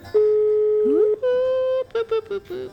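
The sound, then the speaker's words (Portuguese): Telephone tones sound as a call is placed: a steady, loud dial tone, then a brief sliding tone, then a few short beeps like keys being pressed. “Eu vou ligar pra um cara aí.”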